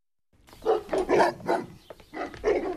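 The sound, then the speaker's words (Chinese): A police dog barking: a few loud, throaty barks in quick succession, alone and without talk. “昆山分局的刑警就带着警犬来”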